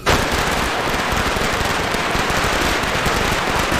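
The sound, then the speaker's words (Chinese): A long string of firecrackers set off at a birthday celebration to chase away bad luck, a dense, loud, unbroken crackle of rapid pops that starts abruptly and continues at full intensity throughout. “你过个生还放炮呢？ 哎呀，姐，你弟这两年净走背字儿，放个炮去去邪气嘛！”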